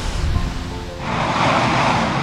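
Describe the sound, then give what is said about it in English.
Steam roaring out of a newly drilled geothermal well at the Hellisheiði plant at the foot of a mountain in Iceland, turned down in level: a continuous loud, breathy hiss-roar that grows fuller and stronger after the first second. “And here is the sound of steam coming out of a recently drilled well here at the foot of a mountain in Iceland on the site of the Hellisheiði plant. We've turned it down for you, but it's roaring like a jet engine.”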